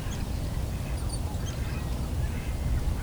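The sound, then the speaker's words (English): Faint quacking of mallard ducks as they take off and fly past, a few scattered calls over a steady low outdoor rumble. “You can hear some mallards cackling. Oh, they're taking off, all right. Might be coming by this way, some mallards.”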